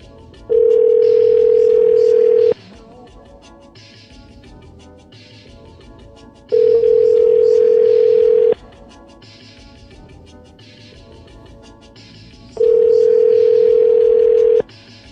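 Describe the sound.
An outgoing phone call goes unanswered, its ringback tone sounding three times. Each ring is a steady buzzing tone about two seconds long, and the rings are separated by roughly four-second gaps of faint background.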